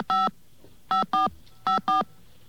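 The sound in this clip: Touch-tone telephone dialing of a long-distance number: five loud, steady electronic tone bursts with no voices, a single tone followed by two close pairs.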